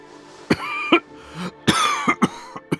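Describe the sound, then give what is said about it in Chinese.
A man coughs softly several times, giving low, short, throaty bursts in a loose, irregular run. The coughs are quiet, with brief pauses between them and no speech. “他低低咳嗽几声”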